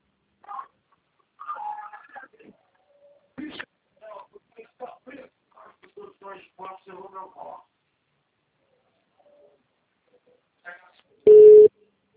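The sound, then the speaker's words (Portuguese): A single telephone busy tone sounds after a phone call drops. The short, steady beep comes at the very end, after a stretch of quiet talk. “Acho que a ligação caiu e retornou automático.”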